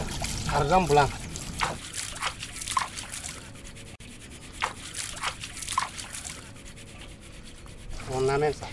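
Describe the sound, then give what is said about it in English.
Sand sifted by hand to filter out silver particles dropped from jewellers' work in Niamey: steady rhythmic rasping swishes repeat throughout, with voices talking briefly at the start and the end. “I came to record that sound. They're looking for white silver in the sand.”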